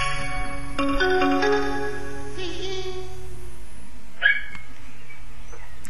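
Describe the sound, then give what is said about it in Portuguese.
A small dog barks with short, faint yaps under a steady hum and tonal background sounds. “Com o cãozinho também aí a ladrar.”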